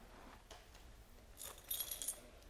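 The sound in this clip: Apartment keys are handed over, giving off a few faint, light metallic jingles and clinks in the second half, with no voices.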